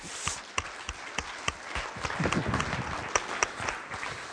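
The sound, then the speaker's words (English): An audience claps to welcome a speaker to the stage. The clapping is quiet and thin, made of scattered individual claps with a slightly denser patch midway, rather than a full roar. “So would you please put your hands together and welcome Dr. Bob Burby.”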